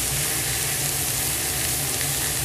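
Food sizzles and fries in a pan as it is stirred. The hiss is loud and steady from start to finish, with no talking.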